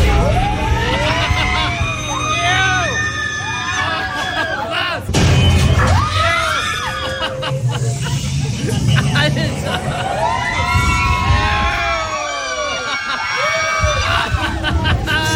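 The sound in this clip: Riders scream and laugh on the Tower of Terror freefall ride, many overlapping shrill, wavering voices that rise and fall continuously, with a louder burst of shrieks about a third of the way through.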